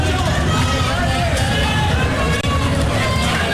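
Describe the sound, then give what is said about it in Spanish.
Colombian national football team players shout in their dressing room, a loud, continuous mass of overlapping male voices with no pauses. “Escuchen el saludo, escuchen el camerino, nuestro micrófono, el micrófono del Blue ubicado ahí. Son los jugadores colombianos.”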